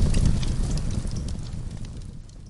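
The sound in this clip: Gasoline bursting into flames after a lighter is thrown onto it: a loud, dense whooshing roar with rumbling low crackle that gradually fades, with no voices.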